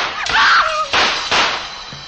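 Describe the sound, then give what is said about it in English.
Gunshots fired in the dark ring out as three sharp, loud cracks spaced unevenly over about a second, each with a short, noisy tail. “It was Carew off in the dark somewhere shooting at anything that moved.”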